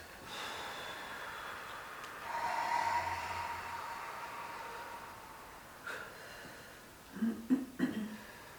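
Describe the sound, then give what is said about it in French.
A slow breath drawn in during a guided breathing exercise, heard as a soft airy rush, followed later by a few short, louder breathy bursts. “J'inspire”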